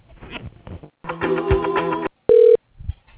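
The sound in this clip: Telephone line tones as a business call is transferred to voicemail: a buzzing ring tone lasting about a second, then a short, steady, clear beep, with a few soft clicks around them.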